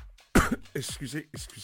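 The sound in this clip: Throat clearing and coughing from someone with a frog in the throat: a sharp, rasping burst followed by rough, voiced throaty noises.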